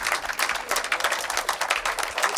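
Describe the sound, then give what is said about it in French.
Audience applause for a big band conductor and a saxophonist at a jazz festival in the Théâtre Antique, a dense crackle of many overlapping claps that stays at a fairly even level throughout. “Je vous demande de vous les applaudir tous les deux.”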